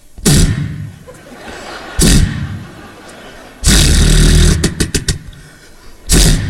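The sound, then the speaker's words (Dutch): A voice imitates a Harley-Davidson motorcycle that won't start, giving four loud sputtering bursts separated by pauses; the third is the longest and breaks into rapid stuttering pops. “Nu doe ik een Harley Davidson, daar mag je nog niet op. Dat is een motor die niet wil starten.”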